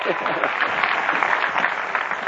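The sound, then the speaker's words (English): Audience applause during a lecture, a level, busy patter of clapping in the mid range that neither builds nor fades over the short stretch. “How about a round of applause for good old Cary, huh?”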